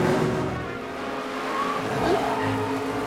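A race car overtaking on a racetrack on the final lap of a race, with a steady roaring engine drone throughout and a brief high tire squeal near the end.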